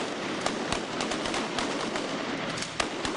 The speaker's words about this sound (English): At the Los Angeles Police Academy, reservists are perfecting their aim during target practice, shooting at bad guys made of cardboard who pop out from what looks like a movie set.